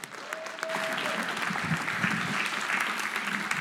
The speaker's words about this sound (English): So come on and bring it. Give him a hand.